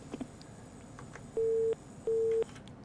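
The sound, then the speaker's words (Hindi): A telephone busy tone sounds after a call drops: two evenly spaced mid-pitched beeps, each steady and short, over faint background noise. “Phone cut गया है लेकिन कोई बात नहीं।”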